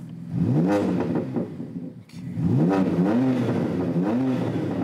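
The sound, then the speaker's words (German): A BMW car engine, software-tuned with five selectable sound modes, revs loudly several times. Each blip climbs sharply in pitch and falls back over a rough, throaty idle. “Beliebt ist auch nachträgliches Software-Tuning, wie an diesem BMW. 5 Modi hat der jetzt drauf. Aha. Nachträglich, wohl bemerkt, das ist nicht mehr im Bereich, was BMW mal vorgesehen hat. Verändern Sie jedes Mal das Klangbild.”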